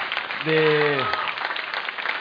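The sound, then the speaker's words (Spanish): Audience applause for a tango orchestra concert: a steady, dense wash of clapping at moderate volume, with a brief voice over it near the start. “me gustaría escuchar un fuerte aplauso de todo el público que vino aquí, que tuvo la gentileza”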